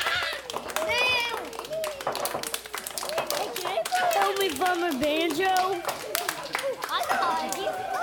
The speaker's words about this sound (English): Ladies and gentlemen, put your hands together for the shark.